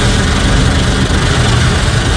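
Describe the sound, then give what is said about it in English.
An automatic car wash in Central Florida, with brushes and spraying water, makes a loud, unbroken roar of rushing spray with a low mechanical hum underneath, steady across two seconds. “the loud and rhythmic sounds of car wash, soapy suds spraying and cascading down the car windshield, are a common refrain across Central Florida this time of year.”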